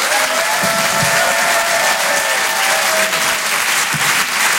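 Loud, steady applause from a comedy-show audience greeting a comedian on stage, a dense continuous clatter of many clapping hands that holds at an even level for the whole stretch.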